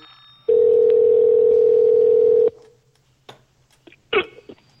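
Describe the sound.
A steady telephone dial tone sounds while a call is being placed. It holds loud and even for about two seconds, then cuts off, leaving a few faint clicks and short blips.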